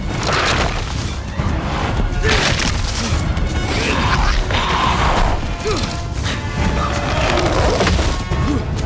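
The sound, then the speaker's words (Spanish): Thick bamboo-like canes smashed by a panther pushing through them: loud, dense cracking and splintering of wood, many overlapping snaps and crunches that keep up without pause and with no talk. “Pasan entre gruesas cañas parecidas al bambú. La pantera las cruza destrozándolas.”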